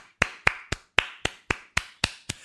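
Nine sharp, evenly spaced claps from a single pair of hands, each crisp and loud with a quick decay, keeping a steady rhythm with nothing else around them.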